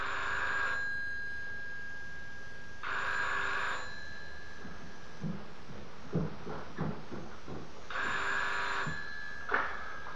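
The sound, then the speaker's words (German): A rotary telephone in a phone booth is dialled and rings, with repeated electronic ring bursts separated by pauses and a run of soft mechanical clicks from the turning dial. “An ihn denkt sie sehr intensiv, als sie jetzt in der Telefonzelle die Nummer dreht.”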